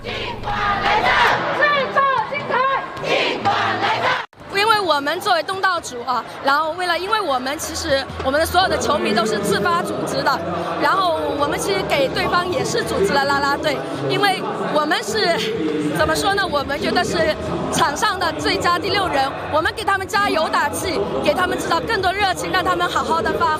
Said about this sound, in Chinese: 说到现场球迷，就不得不提苍南本地的球迷方阵，整齐划一，热情昂扬，还自发分成两组，分别为两支球队加油